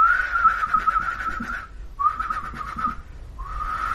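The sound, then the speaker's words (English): A person whistling bird-like notes from the bushes beside a road: three warbling, trilled phrases at a steady high pitch, separated by short pauses. “somebody whistling. Like literally off in the bushes, somebody is making vaguely bird-like, but very clearly whistling noises at you.”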